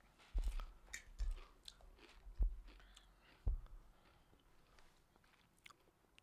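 Faint crunching of rotisserie-flavoured Pringles chips being bitten and chewed: a few sharp crunches spaced about a second apart, then softer chewing trailing off, with no talk.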